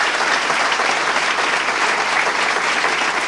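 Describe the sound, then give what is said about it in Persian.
Applause from a meeting audience, a dense, even wash of many hands clapping together that holds at a steady loudness from start to finish, with no pauses or voices standing out. “این گزارش دیدبان رو دست بزنید، خطی در بیارید.”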